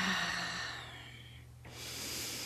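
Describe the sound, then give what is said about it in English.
A single deep breath in is drawn slowly through the airways, a rising breathy rush of air that follows a brief voice fading out. “So let's just take a moment and breathe in.”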